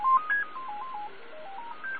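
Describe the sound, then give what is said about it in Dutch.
Telephone keypad tones sound while a call is dismissed: a rapid run of many short electronic beeps that step up and down in pitch, steady and moderately loud, with no voices. “Even de telefoon wegdrukken.”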